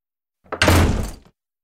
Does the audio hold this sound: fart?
no